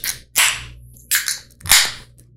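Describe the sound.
Craft beer cans being cracked open, each giving a sharp metallic pop followed by a brief spraying fizz. A few separate bursts come in quick succession with short quiet gaps between them.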